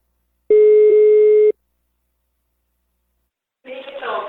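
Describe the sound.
Telephone line tone while a call is placed: a single loud, steady mid-pitched beep lasting about a second, then silence, then a voice begins.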